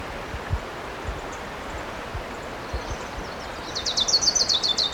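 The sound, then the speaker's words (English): An orange-crowned warbler calls near the end with a rapid, high trill of many notes, coming in after a low, rumbling background with a few soft thumps. “I see the bird. It's definitely an orange crown.”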